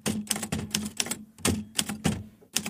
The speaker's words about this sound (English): Here's how you type cannot. All right, here's how you type can't.